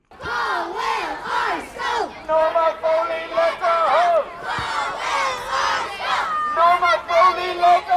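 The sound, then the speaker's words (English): Children chant at a protest in Dublin calling for an Irish-language secondary school, a Gaelcholáiste. Their high voices rise and fall in a loud, rhythmic chant, with crowd shouting mixed in. “And just at the start of this clip, you'll hear some of the chanting that was going on.”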